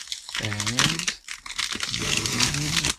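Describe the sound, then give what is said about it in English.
Cardboard packaging crinkles and crumples as a box is opened and unpacked, with a voice talking over the rustling. “So anyway, here we go. Let me open it up, get rid of the box, and then open it up.”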